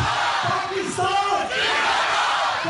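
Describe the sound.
Crowd chanting Pakistan Zindabad slogans at a Pakistan Day event, a loud massed shout of many voices surging in repeated waves and staying strong throughout.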